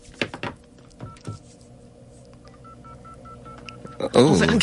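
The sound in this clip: Touch-tone telephone dialing as a number is keyed in to reach a caller for an on-air phone game: a run of short, evenly spaced beeps, followed by a loud burst of voices at the end.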